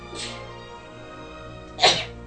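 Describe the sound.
A sharp, loud sneeze bursts out near the end, after a softer breathy puff at the start, over a low steady background hum.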